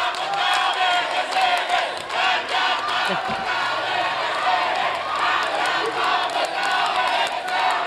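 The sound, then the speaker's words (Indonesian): Audience applause and cheering for three presidential candidates at the final 2024 presidential debate: a dense, continuous crowd roar with clapping that stays loud and steady without pause. “kita berikan tepuk tangan dan apresiasi untuk ketiga calon presiden yang sudah menyampaikan visi misi dan program kerja mereka.”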